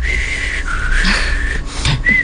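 A person whistling a short tune: several held notes at changing pitches with brief slides between them, clear and alone.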